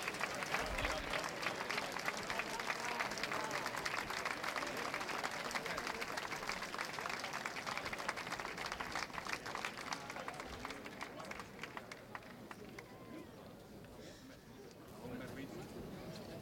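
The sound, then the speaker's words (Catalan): A section of a concert audience keeps up a sustained ovation at the end of the show, dense clapping and crowd noise running steadily for the whole stretch before easing slightly toward the end. “Torna a ressorgir aquí l'ovació des d'un sector del públic.”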